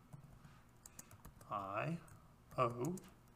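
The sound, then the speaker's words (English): Fingers type a web search on a computer keyboard, producing faint, quick clicks throughout, with brief voiced sounds rising over the tapping twice near the end. “Well, let's just Google that then.”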